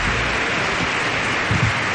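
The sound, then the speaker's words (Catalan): Applause for an accordion player: a dense, even wash of clapping that stays at a steady level for the whole moment, with a slight swell near the end. “Aquest és un aplaudiment per Jaume Molló, no?”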